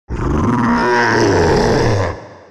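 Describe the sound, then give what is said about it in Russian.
A monstrous creature roars during a fight: one loud, sustained, growling blast that lasts about two seconds and then cuts off abruptly into silence. “выругался Тихомир, но его заглушил рев твари.”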